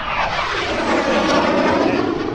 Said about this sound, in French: Comme vous pouvez l'avoir entendu, je pense, on a un avion en réaction qui vient de passer et toutes nos oies sont très affolées